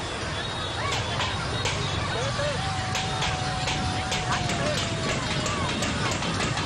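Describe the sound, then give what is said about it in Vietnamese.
Crowd noise from spectators cheering the boats at a boat race near the Phong Xuân bridge, a dense, steady roar throughout with scattered sharp knocks that suggest drumming. “ngay ở tại hiện trường lúc này thì chúng tôi nghe rất rõ những tiếng gõ, những tiếng kèn cũng như là bà con với một từ rất là địa phương: lên nào các thuyền ơi, lên nào.”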